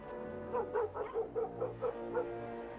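Dogs barking in the middle of a quiet night, a run of quick, evenly spaced barks held fairly faint over a steady low drone.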